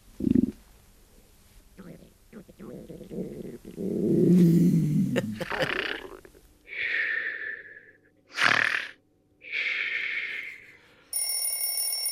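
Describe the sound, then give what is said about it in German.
Body noises in sequence: stomach growling heard as low gurgling rumbles, then rasping, breathy snores broken by one sharp snort, and finally an alarm clock ringing with a steady metallic bell. “Magenknurren, Schnarchen und Wecker. Die verrücktesten Körpergeräusche.”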